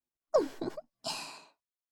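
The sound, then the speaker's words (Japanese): A person pants heavily with a few soft, breathy bursts, followed by a longer drawn-out exhale, heard alone. “ハァハァするばっかりで、なんにも言ってくれもちゃんね。”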